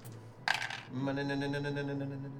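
Dice rolled in a tabletop game give a brief clattering rattle lasting under half a second, followed by a steady sustained tone.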